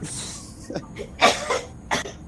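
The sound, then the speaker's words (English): Harsh, hacking coughs from a person in the background, a few separate bursts over a faint hiss, with no clear talk. “There's like it was like a crack cough in the background.”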